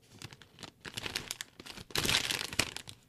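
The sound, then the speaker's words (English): Crinkling of an opened packet of banana chips: many soft, uneven bursts of crisp plastic rustle and crackle, with a short pause partway through and a denser, louder stretch toward the end. “Oh, a packet of chips. Original.”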